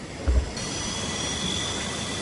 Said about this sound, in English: These are octocopters. Yeah. These are effectively drones, but there's no reason that they can't be used as delivery vehicles.